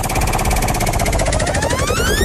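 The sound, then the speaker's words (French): Rapid, even ticking of a prize wheel being spun at a game show, a loud continuous rattle of clicks with bright rising synthetic tones sweeping upward over it. “Allez, on va tourner la roue ensemble.”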